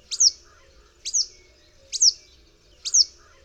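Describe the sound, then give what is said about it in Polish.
A marsh warbler mimicking a yellow wagtail's call gives four high, sharp calls, each a quick two-part chirp, repeated evenly about once a second over faint background noise. “A teraz naśladuje pliszkę żółtą.”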